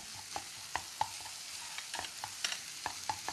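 Chopped green onion and garlic sizzle in a pan over high heat for a Korean-style stir-fry, a steady hiss broken by many sharp clinks of stirring.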